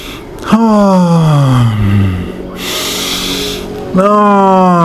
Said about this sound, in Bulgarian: Няколко вдишване, издишвания, които насищат всичко.